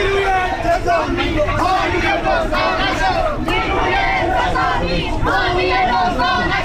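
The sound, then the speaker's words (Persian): Protesting farmers and their families in east Isfahan chant slogans together, a loud, continuous mass of raised crowd voices with rhythmic surges throughout. “تجمع کشاورزان شرق اصفهان در روز چهارشنبه در شرایطی برگزار شد که یگان ویژه حضور گسترده‌ای در اطراف آنان داشت و در یک مورد خیابانی را بر روی آنان مسدود کرده بود. کشاورزان و خانواده‌هایشان هم شعار دادند:”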